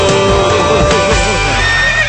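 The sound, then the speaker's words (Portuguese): A horse neighing, a loud, wavering whinny that fills the whole short clip. “Cavalão tá chegando, cavalão tá doidão.”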